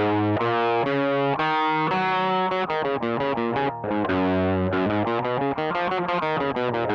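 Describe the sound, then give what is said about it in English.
A musical scale in the key of G, played as a steady run of many clear, sustained notes with a thick, distorted, effected tone. No talking over it. “Typically, a scale would sound something like this. We'll just pick the key of G.”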